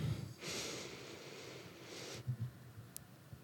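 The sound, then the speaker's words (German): A slow, deep breath drawn in through the nose, a soft airy rush lasting over a second, then a few faint low rustles. “Lass uns mal einatmen, tief durch die Nase.”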